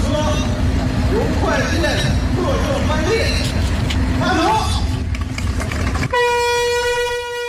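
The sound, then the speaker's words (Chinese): A China-Europe freight train loaded with cross-border e-commerce parcels pulls out of Zhengzhou International Land Port. A loud, continuous rumble and clatter of rolling wagons gives way near the end to a long, steady horn blast. “一列满载跨境电商邮包的中欧班列从郑州国际陆港缓缓驶出，标志着郑州国际陆港新建联络线正式竣工通车”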